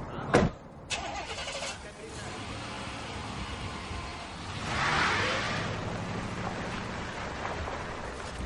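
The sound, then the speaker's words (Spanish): A car outside a police station starts and drives off: a couple of sharp thuds open, then the engine swells into a broad rumble midway before easing back to a steady hum. “monta en su coche y se va.”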